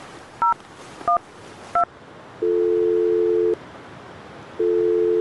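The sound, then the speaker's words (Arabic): Three short telephone keypad tones from a call being dialed, followed by two long, steady ringing tones on the line with a pause between them; no voices. “أنا هتصل بزوجتي ميمونة وأسألها عن اسم المدرسة”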